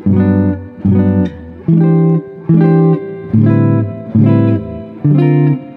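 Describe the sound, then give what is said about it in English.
A guitar plays altered dominant seventh chords voiced with a flat 13 and a sharp 9. There are seven separate strikes, each ringing briefly before the next, in a slow, even rhythm that sounds tense and dissonant. “I'm going to show us playing the flat 13 and the sharp 9 on top of those dominant 7th chords. So it's going to sound like this.”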